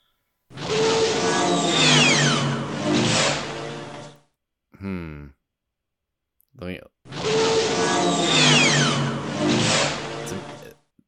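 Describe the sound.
Sci-fi speeder bike sound effect from the planet Endor: two long, loud roaring whooshes with sweeping, falling whine tones. A short gap between them holds brief vocal bursts.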